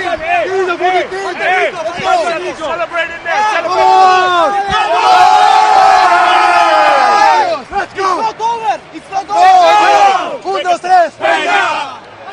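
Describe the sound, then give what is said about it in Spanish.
Divina Seguros Juventud supporters celebrate in the stands at the Felipe II end, a loud, dense crowd roar of chanting, shouting and whooping that surges and dips but never stops. “Este es el sonido del Juventud.”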